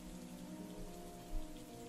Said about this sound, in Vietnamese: Ngoài trời mưa vẫn rơi, gió lạnh buốt thổi làm cánh cửa sổ mục nát kêu lên từng hồi.